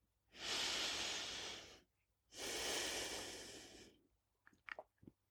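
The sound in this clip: Slow, deliberate breathing during a guided prayer: two long, airy breaths separated by a short pause, fairly loud, followed by a few faint small mouth clicks.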